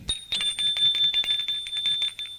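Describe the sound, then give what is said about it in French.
An apartment doorbell rings in a rapid, continuous electric trill for over two seconds. The tone is bright and high, steady in loudness, with no voices. “Il sonne à son appartement.”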